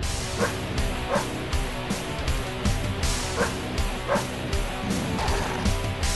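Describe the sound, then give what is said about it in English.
Pitbull barks recur through a loud, dense heavy metal song, the sharp bursts cutting through distorted guitars and drums at an irregular pace. “Here's a song of metal and a pitbull. It's going to be great.”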